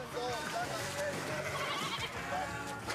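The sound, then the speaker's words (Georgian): Sheep bleat while being bathed in a parasite-removal dip solution, with wavering bleats over a steady, busy wash of noise that runs through the whole clip. “ცხვარს სპეციალურ ხსნარში აბანავენ, პარაზიტების მოსაცილებლად.”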